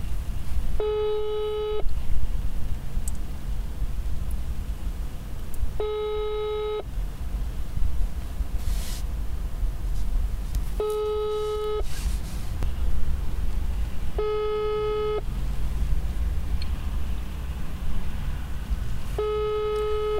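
Ringing tone of a telephone call that goes unanswered: five steady one-second tones spaced several seconds apart over a constant low background rumble.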